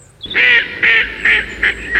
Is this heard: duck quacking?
yes